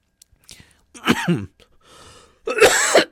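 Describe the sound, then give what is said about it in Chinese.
Two hoarse coughs from a person with a cold, each a loud rough burst about half a second long, separated by faint breathy sounds. “今天因为这个感冒，所以有时候会咳嗽”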